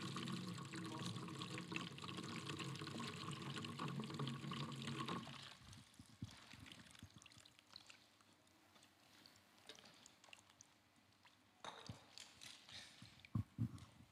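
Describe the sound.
Water pours onto a tree in a dense, steady splashing stream for about five seconds, then drops to quieter scattered splashes and drips.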